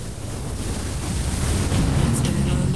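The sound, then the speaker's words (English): Ocean waves breaking in the surf where a woman rides a wave. A constant roaring wash of water with wind buffeting underneath swells slightly louder toward the end. “He watches as she expertly rides a wave. The sun behind her, she glides through the water as the wave carries her forward on a rush of white foam.”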